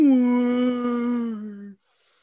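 People imitating a howl in a long, sustained wail at a fairly steady pitch that dips slightly near the end, lasting under two seconds before cutting off to quiet.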